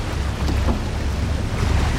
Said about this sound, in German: Das Wassertaxi. Yippie, sie haben gedreht.